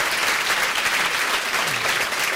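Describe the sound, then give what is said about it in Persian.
Audience applause as people clap for themselves: a dense, even roar of many hands clapping at a steady loud level throughout the short stretch, with no speech rising above it. “مرسی خودتو تشویق کنی مرسی واقعا تشویق کنی”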